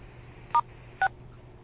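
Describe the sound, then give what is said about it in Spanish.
Two telephone keypad tones, star then six, pressed to mute background noise on a call. Both are short, steady two-pitch beeps about half a second apart, with faint line hiss between them. “si hay mucho ruido en sus casas, pongan el asterisco 6.”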